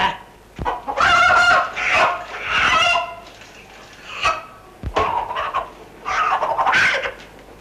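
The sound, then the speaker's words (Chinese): A fighting rooster clucks and crows in a few loud, raspy bursts with short pauses between them. Its harsh, throaty calls come through clearly with no talk over them. “我呢只直正一鸡王嚟噶，逢打就必赢。嗱，我而家即刻拎出去。隔離同啲雞鬥過俾你睇下”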